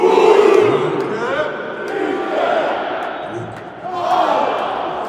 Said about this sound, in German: Oho, mal wieder O-Töne aus dem Stadion, nur diesmal ohne den Kommentar des Hörfunkmoderators Hans Gerzlich.